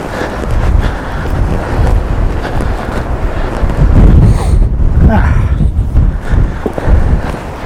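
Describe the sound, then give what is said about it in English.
Wind buffets a microphone outdoors, a loud, steady low rumbling roar with gusty surges that continues throughout with no voices. “Okay, so that's frame one destroyed. Thanks, wind.”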